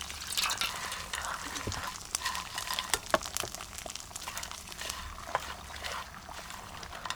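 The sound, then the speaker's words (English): Stock is stirred, a little at a time, into rice cooking in a pan: faint wet sloshing with irregular small drips, trickles and light clicks, quiet and steady throughout. “Add the liquid a little at a time. Keep stirring and gradually add more stock until the rice is cooked.”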